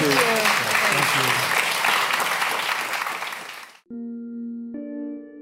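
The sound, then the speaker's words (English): Applause from an audience at a live talk event: dense, steady clapping that holds strong for a few seconds, then stops abruptly and gives way to a few sustained musical tones. “let's have a big round of applause for Xander”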